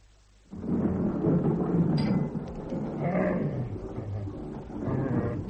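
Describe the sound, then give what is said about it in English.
Thunder from an approaching storm swells suddenly into a low, rolling rumble and continues as a steady deep roar, with no talk. “I hope there's not going to be a storm.”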